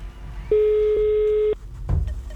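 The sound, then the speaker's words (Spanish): A telephone line tone while a call is being dialed: a single steady, even tone holds for about a second, then cuts off and is followed by a brief burst of noise. “empezamos a marcar y vemos”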